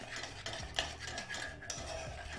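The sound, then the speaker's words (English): Stirring homemade barbecue sauce with ground black pepper in a pan over heat: faint, soft scraping and swirling strokes repeat in an uneven rhythm, with light clinks. “Some black ground pepper. And just mix that in and blend it in on the heat. It's starting to blend nicely now.”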